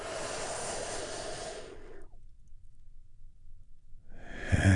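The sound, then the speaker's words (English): One long, deep breath hisses softly for about two seconds during a guided breathing exercise, then near silence, with another breath starting at the very end; quiet throughout. “Take another big, deep, healing breath right now.”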